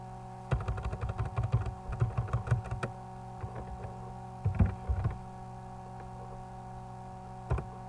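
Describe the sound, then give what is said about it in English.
Typing on a computer keyboard: quick runs of light key clicks in two main bursts, then a pause and a single late click, faint and with no talk. “sorry, this is just a lot of me typing,”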